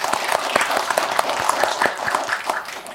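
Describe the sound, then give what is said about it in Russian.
Audience applause congratulating someone on a new appointment during a studio interview, with many crisp individual claps forming a lively, steady patter at moderate loudness. “давайте похлопаем за назначение. Поздравляем!”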